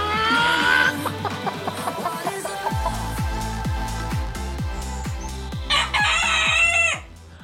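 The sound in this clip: Chickens at a chicken-throwing tournament cluck in a fast, regular run of repeated calls. High crowing bursts open the sequence and return near the end. No voices are heard.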